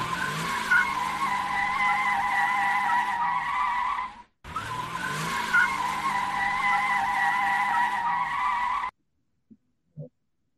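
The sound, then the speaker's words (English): Car tires squeal in two long, sustained bursts of about four seconds each with a short break between them, followed by quiet and two brief soft clicks. “But that is what squealing tires might sound like.”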